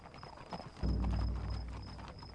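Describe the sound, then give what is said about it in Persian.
Horse hooves clip-clop as a rider sets off at a gallop, a fast run of many hoofbeats that grows heavier partway through, with a deep low rumble joining in and no talk. “سوار بر اسب شد و به تاخت حرکت کرد”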